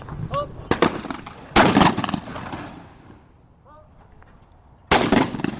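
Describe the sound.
Gunfire cracks out at a shooting range at a lakeside gun club. Several sharp, loud shots come in irregular bursts, some in quick succession, with quieter gaps between them.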